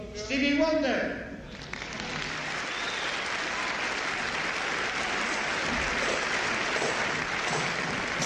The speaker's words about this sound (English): Celui que vous allez applaudir maintenant, vous le connaissez certainement.